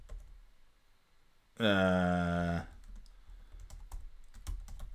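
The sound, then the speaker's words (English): Typing on a computer keyboard: quiet, irregular key clicks in a scattered run that follows a brief loud sustained tone. “I'm just typing it in.”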